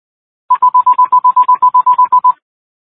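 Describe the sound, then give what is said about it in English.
Telephones ring during a roll-call phone test, sounding as a rapid, evenly spaced string of many short, loud, high electronic beeps on one steady pitch, heard alone and ending abruptly. “Testing roll call phones.”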